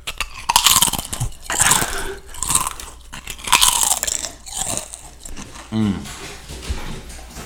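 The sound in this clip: Lay's Stacks potato chips crunched and chewed in a basement, with several loud, crisp crunching bites and chewing sounds coming in uneven bursts.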